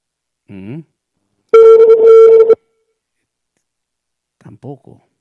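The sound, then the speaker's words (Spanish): Ringback tone of an outgoing telephone call to an office that goes unanswered: one long, steady, buzzy ring of about a second, with brief voice-like fragments just before and after it. “Recién bueno, estamos llamando al señor Araujo, subgerente de comercialización.”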